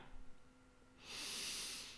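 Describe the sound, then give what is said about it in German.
A deep breath drawn in, one long airy inhalation that swells from near silence into a soft, steady hiss lasting about a second, with no voice. “atme erstmal tief ein”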